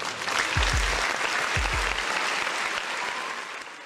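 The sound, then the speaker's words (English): Applause from an audience welcoming a host: a steady wash of clapping throughout, with a few low thumps early on, easing slightly toward the end. “Now give it up for your host, The Educated Natural.”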